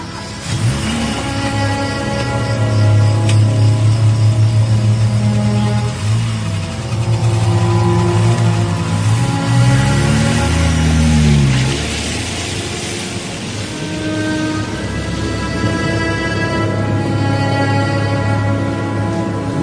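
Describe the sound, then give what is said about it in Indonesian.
A car engine starts up and pulls away, running loud and steady throughout with the pitch climbing and dipping as it revs, then settling into an even drone. “Ivan pun menyalakan mobil dan kami pun mulai berangkat”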